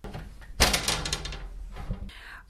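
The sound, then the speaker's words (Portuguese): Pantry door opening: a sudden loud thump is followed by a longer stretch of rustling and scraping, with another shorter burst of noise near the end. “A porta da despensa se abriu e alguén entrou.”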